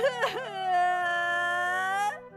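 A child crying in a children's audio story: one long, drawn-out whimpering wail with a brief wavering start, fairly soft, then cutting off.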